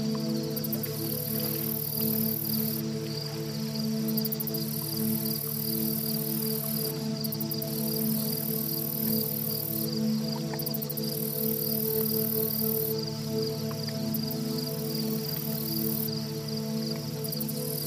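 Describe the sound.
Crickets chirp in a forest by a lake at nightfall, a dense, continuous trilling chorus that holds steady throughout. A high, pulsing shimmer switches on and off at intervals above it.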